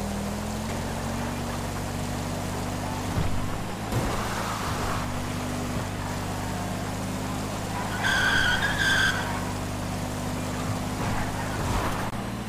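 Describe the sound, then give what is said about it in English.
A car drifts in a driving video game, its engine droning steadily throughout as the tyres skid and scrub. A louder, high-pitched squeal rises about two-thirds of the way through, with no speech. “Did I just do a drift? I thought that was supposed to be disabled. I guess it is enabled.”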